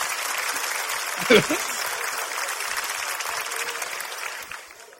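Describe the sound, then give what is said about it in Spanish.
Audience applause for a two-time world champion at a live event: steady, dense clapping with a brief loud burst near the start and voices mixed in, tapering off toward the end. “Un aplauso para mi campeón del mundo.”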